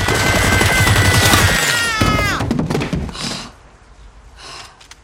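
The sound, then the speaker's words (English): Gunfire pummels a group of men in a dense, loud volley of rapid shots lasting about two seconds, followed by a sharp downward-sweeping tone and a few fainter scattered bursts as the noise dies down. “Wednesday opens fire and the men are pummeled with bullets.”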